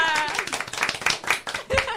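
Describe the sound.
Applause breaks out for performers after a song. Many quick, dense claps come in uneven bursts while people talk over them, with a louder swell near the end.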